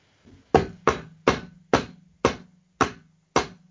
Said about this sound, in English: hammering and sawing, and so you might hear some of that in the background of this episode.